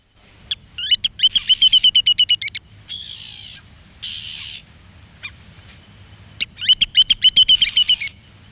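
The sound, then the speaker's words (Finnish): Ruddy turnstone calls from an outer-archipelago shorebird: two bursts of rapid, high chattering notes, with a few harsher rasping notes in between, heard alone over a low background hiss. “ulkosaariston lintuja. Karikukko.”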